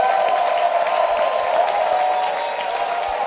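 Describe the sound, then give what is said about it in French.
A church audience on its feet claps and shouts in praise. The clapping is dense and continuous, with crowd voices blended in, and it stays loud and steady throughout. “stand to your feet and give the Lord a shout and clap.”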